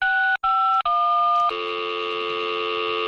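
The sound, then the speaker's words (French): Telephone tones of a call reaching an answering machine: three short, steady two-note beeps separated by brief gaps, then a longer continuous tone at a different pitch that holds to the end. “Vous êtes sur le répondeur de FMR.”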